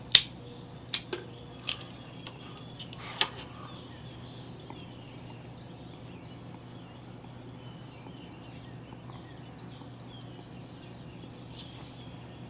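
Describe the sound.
A cigar cap being cut before a pre-light draw: four sharp, clipped snips in the first few seconds, then near silence with only a faint background hum.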